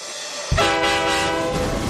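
Train carriage passing, beginning with a sudden loud onset of rushing, rumbling noise and a sustained horn-like harmonic tone, then holding steady and loud to the end.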